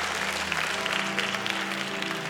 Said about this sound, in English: Now clap those hands and take your seats.